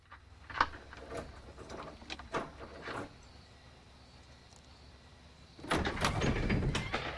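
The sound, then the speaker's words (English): Keys clink in a few sharp, scattered metallic taps, then after a quiet pause a door is opened with a louder, sustained scraping and rustling. “He gets out keys and opens the door.”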